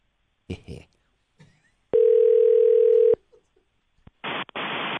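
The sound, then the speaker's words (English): A telephone dial tone plays while a call is being dialled: a steady, mid-pitched hum lasts about a second, preceded by a brief voice and followed by a few short, sharp dialing bursts. “It's time to dial.”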